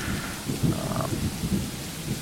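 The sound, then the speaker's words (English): Thunderstorm in the woods, with a dense, steady hiss of heavy rain over a low, continuous rumble of thunder, loud and unbroken throughout. “Lightning, thunder, trees falling down in the woods around you.”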